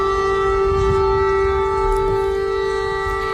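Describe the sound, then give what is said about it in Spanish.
Sirens wail as a steady, loud tone with stacked harmonics during bombing attacks on Kyiv, with low rumbling underneath throughout. “Este es el sonido de las sirenas y los ataques. Ahí suenan los bombardeos sobre la capital ucraniana.”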